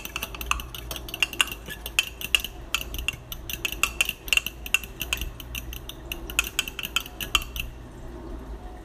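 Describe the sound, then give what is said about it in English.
Three eggs are whisked together in a bowl, giving many quick metallic clinks of the utensil against the bowl in an uneven, busy rhythm over a faint background, stopping shortly before the end. “So I mix the 3 eggs usually together in a bowl and season it.”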